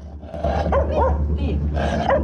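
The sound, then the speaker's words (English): A dog barks behind a slim wrought iron gate beside a building entrance, giving a few sharp, loud barks at uneven intervals over a steady low hum. “Just beside the entrance is a slim wrought iron gate behind which a dog is barking.”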